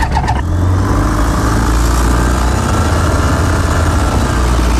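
A light aircraft engine running before flight, a loud, steady, even droning roar that holds unchanged throughout with no voices.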